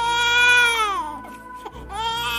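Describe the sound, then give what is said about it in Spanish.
A newborn baby cries in loud, high wails, with two crying bursts separated by a brief catch of breath. No talk is heard. “Yusus llora y su lloro atrae la atención de Juan y de Pedro”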